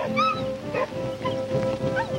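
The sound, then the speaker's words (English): Whimpering comes from a skinny dog walking at the head of a column of troops at night on a rocky switchback, with several thin, wavering high whines over a quiet, steady background. “A skinny dog walks beside Brittles in the lead.”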